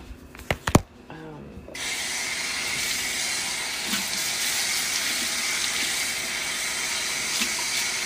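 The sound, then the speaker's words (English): Running tap water rinses out a bowl that held egg. A few brief clinks come first, then a steady, even rush of water continues to the end. “So I'm rinsing out the bowl that I had the egg in.”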